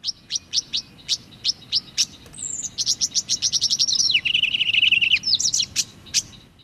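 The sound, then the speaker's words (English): Tawny grassbird calling from wetland rushes and grasses in northern Australia: a run of sharp, high ticking notes speeds into a rapid chattering trill, dips to a lower buzzy phrase, then ends with a few more high notes. “It was the tawny grass bird. Rushes and grasses around water are the places you'd normally hear it”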